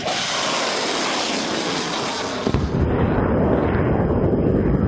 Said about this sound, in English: The Mersads launched their missiles one after the other.